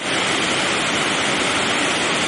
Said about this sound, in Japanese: なんかちょっと滝の音が聞こえてきましたよね。